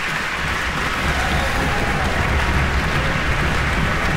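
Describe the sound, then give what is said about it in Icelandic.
Concert audience applauding the bassoon section after the first bassoonist stands, a dense, steady wash of many hands clapping evenly throughout, with no voices above it. “áheyrendur enda búnir að að halda í sér fagnaðarlátunum í hartnær hálfaðara klukkustund”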